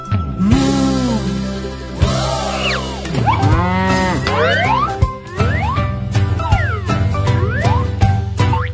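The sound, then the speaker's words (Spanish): A cow's mooing in a children's song: long, drawn-out moos with gliding pitch, repeated several times over a bright, steady musical backing. “¿Y cómo hace la vaca?”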